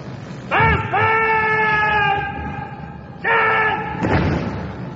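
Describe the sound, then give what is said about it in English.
Soldiers on a Guards parade move their rifles from one shoulder to the other, marked by a few sharp, crisp thuds. Shouted drill commands ring out as long, sustained tones between them. “They change arms from one shoulder to the other.”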